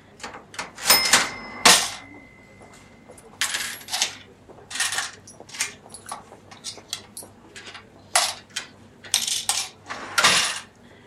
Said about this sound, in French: s'il vous plaît, voici votre monnaie, 43 euros et 70 centimes.